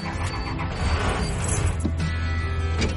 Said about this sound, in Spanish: Él arranca el autobús.